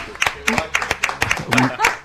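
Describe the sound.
Audience applause for the musician Javier Malosetti: about nine sharp, evenly spaced claps in a rhythmic pattern, moderately loud, with voices talking over them.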